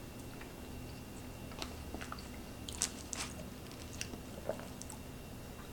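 Faint chewing and biting of a food with a powdered flavoring during a taste test: a few soft, crisp crunching clicks spread sparsely over several seconds, with no talk.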